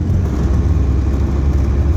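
A car drives across fields near a front line, giving a steady, loud, low engine rumble and road noise that runs without a break.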